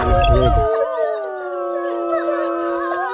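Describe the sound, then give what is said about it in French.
Wolves howling in chorus: several long, overlapping howls with wavering, sliding pitch, opening with a brief burst of loud rough noise before the howls carry on steadily. “Oula, il y a des loups là.”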